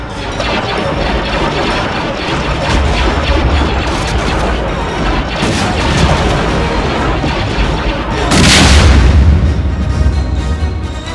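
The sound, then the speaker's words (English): Starship weapons fire as one ship returns fire on an enemy vessel: dense rumbling blasts and crashes over a continuous roar, with a louder booming burst toward the end. “Lieutenant, return fire on their ship.”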